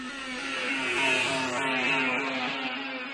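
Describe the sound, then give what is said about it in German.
A time machine starts up with a steady, droning engine-like hum that has a revving, whirring edge. It holds at an even loudness for about three seconds, with no voices. “Setz den Strom an, Karl. Karl setzte den Strom an und die Zeitmaschine wurde in Gang gesetzt.”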